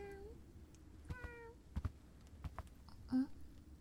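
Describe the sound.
Faint cat meows at home, a few short, high, wavering cries with quiet pauses between them and soft taps in the background.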